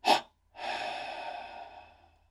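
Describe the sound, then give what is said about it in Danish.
Double exhalation through the mouth during a breathing exercise: a short, sharp puff of breath, then after a brief pause a long, steady, hissing exhale that slowly fades, soft and alone. “Og en gang til dobbelt indånding. Spænd så meget du kan i hele kroppen. Og dobbelt udånding gennem munden.”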